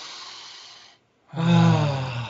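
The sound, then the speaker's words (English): A deep breath taken to clear the mind during meditation: a long, airy inhale of about a second, a brief silent pause, then a louder, fuller exhale with a soft voiced, sigh-like tone. “So let's take a deep breath to clear our mind.”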